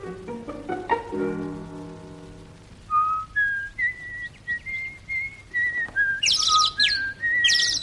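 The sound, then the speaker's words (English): A small bird chirps and sings in a run of many short, high, whistled notes that come in quick bursts, clear and fairly loud, with no talking. “Hello, little birdie. What's your name?”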